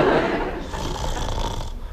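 A person snoring while asleep during a short nap: one long, rough, rasping breath that holds steady and then fades near the end, loud and with no talk.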